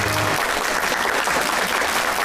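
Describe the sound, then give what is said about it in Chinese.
Applause from an audience saluting a Qinqiang opera performer on fifty years on stage: thick, continuous clapping from many hands at a steady, fairly loud level with no pauses. “所以我觉得呀，我们应该把致敬的掌声送给丁老师，向您致敬，谢谢。”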